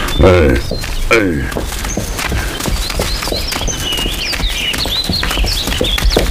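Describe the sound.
Horse hooves clip-clop along a mountain path as the horse is led uphill, a steady run of many light hoof strikes under a continuous noisy background.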